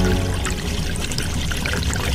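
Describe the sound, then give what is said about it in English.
Water bursts out of a pipe in a loud, steady gushing rush that fills the whole clip without a break. “until eventually, water came bursting out of the pipe, showering everyone around it.”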